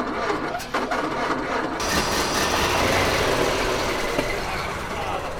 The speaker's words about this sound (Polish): No musiał odpalić, przecież ten Ford ma dopiero 95 lat.